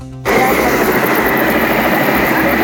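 An aircraft taking off gives a loud, steady engine roar. It begins abruptly after a brief quieter moment and then holds at a constant, dense level.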